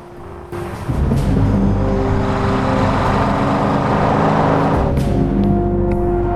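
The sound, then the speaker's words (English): A black muscle car drives through a tunnel, its engine a loud, low rumbling drone that swells after about a second and then holds steady. “Whistler and Blade are driving in a black muscle car through a tunnel.”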